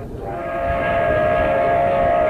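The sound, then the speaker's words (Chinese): A night express train roars through a county-town station without stopping. A steady, heavy rumble builds over the first second, and a sustained horn tone holds throughout. No voices are heard. “县城车站夜色笼罩，特快列车在这里根本不停，呼啸而过。”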